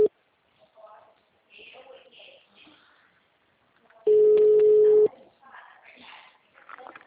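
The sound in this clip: A telephone rings on a call: one steady, fairly loud tone lasting about a second cuts in mid-clip, with voices talking before and after it.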